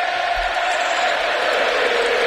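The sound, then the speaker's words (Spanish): A dense, steady roar rises from the football crowd at the Metropolitano stadium in Madrid on a special match day, loud and continuous without distinct peaks. “Así suena el Metropolitano en un día señalado para la capital.”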